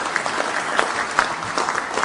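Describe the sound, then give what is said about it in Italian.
Audience applause for a member of parliament at an inauguration event: a short burst of moderately loud clapping with crisp individual claps standing out from the steady patter. “Onorevole Guido Crosetto, rivolgiamo un applauso e un ringraziamento all'onorevole.”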